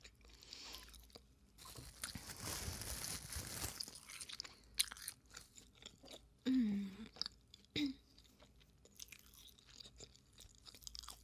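Chewing while eating a meal: soft, irregular crunches and mouth noises at a low level, with a louder noisy stretch early on and a few sharper bites later.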